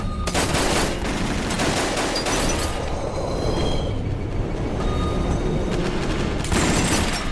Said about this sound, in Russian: Начинается перестрелка.